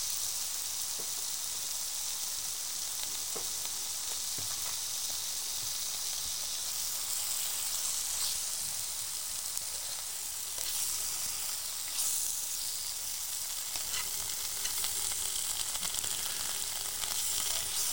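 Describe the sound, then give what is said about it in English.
Four peppery sausages frying in a pan give off a steady, bright sizzle and hiss that holds at even loudness throughout, with a few faint pops and crackles scattered across it. “Are we going with 4 sausages tonight? I think we are going for 4, yeah. 4, in they go.”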